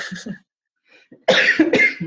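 Coughing from a scratchy throat: a short cough, then a pause, then a cluster of several harsh, rasping coughs in quick succession.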